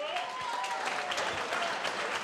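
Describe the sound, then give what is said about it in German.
Audience applause at a Frühschoppen folk festival for the event's organizer, a fairly quiet, steady patter of many hands clapping throughout. “Einen riesengroßen Applaus für Dieter Horvath, meine Damen und Herren.”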